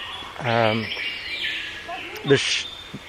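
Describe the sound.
Brightly coloured birds call: a loud, buzzy, rasping call near the start, followed by a few shorter, fainter chirps and one sharp note, over light background hiss.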